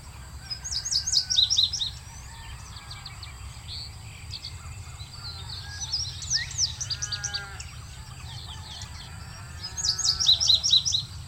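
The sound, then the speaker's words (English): A male indigo bunting sings from a telephone wire in open grassland, three bright, high bursts of paired notes separated by pauses, over a low, steady hum. “perched just above us, singing on a telephone wire, he is bluer than a summer sky. We hear him best of all in the following recording.”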